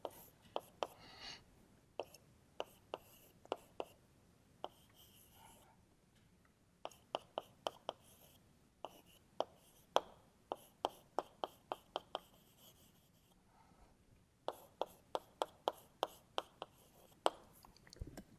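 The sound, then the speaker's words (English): Writing on a board during a lecture as a physics model's Hamiltonian is written out: many short, crisp strokes and taps in quick clusters separated by brief pauses, faint and dry. “Yeah, and right now, right, so let me write down the Hamiltonian for this model.”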